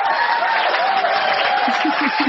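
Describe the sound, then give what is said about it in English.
Loud clapping fills the whole stretch as a dense, steady wash of applause, even in level from start to finish. “So loud. Wow. It sounded so loud we couldn't tell what it was. It was clapping.”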